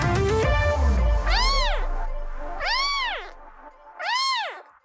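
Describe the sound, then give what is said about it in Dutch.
A kitten meows three times in separate high, clear cries, each call bending up and then down in pitch. “Herken jij dit schattige geluid meteen? Het is het geluid van een kitten.”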